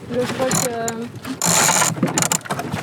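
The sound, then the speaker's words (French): A sailboat winch ratchets as the jib sheet is secured, with bursts of rapid mechanical clicking and grinding and a voice speaking at times. “le foc d'avant. Il n'y a pas de paquet, tu le mets sur le winch simplement. Et je le tiens.”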